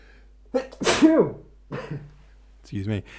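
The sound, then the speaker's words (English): A single sharp, loud sneeze from a person reading a book chapter aloud, set among brief fragments of speech. “Nearly made it to the end of the chapter without sneezing, but I sneezed in the second last word.”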